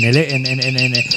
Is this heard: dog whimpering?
no